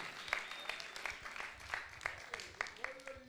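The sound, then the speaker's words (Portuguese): Faint applause for a poet, with many sharp claps landing in a fairly even rhythm. “Palmas para o poeta.”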